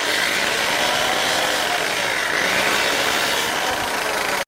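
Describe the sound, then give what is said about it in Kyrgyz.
A homemade cutting machine splits an ibex horn in two with a loud, continuous grinding drone that stays steady throughout, then cuts off abruptly at the end. “Баттал Байгазаков өзү жасап алган станоктун жардамы менен мүйүздү экиге бөлүп, ар бир сантиметрине чейин эсептеп чыгат.”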